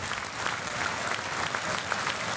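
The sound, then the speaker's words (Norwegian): Football crowd of FKH supporters rising to their feet and applauding the team in the closing minute of a match, with steady, dense clapping sustained evenly across the whole stretch. “FKH-publikum reiser seg opp og klapper guttene”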